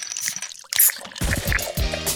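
Beer cans being cracked open and poured: a sharp crack and fizz, followed by liquid sloshing and glugging into a glass.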